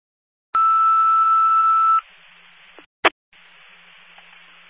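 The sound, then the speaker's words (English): Fire dispatch alert tone over a radio channel: a single loud, steady two-note tone held about a second and a half, followed by radio hiss with a brief sharp click burst. “all units standby for tones.”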